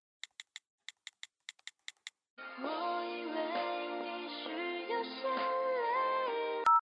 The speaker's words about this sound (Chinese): 我现在就给他打电话